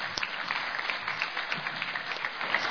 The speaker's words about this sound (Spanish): Gracias por los aplausos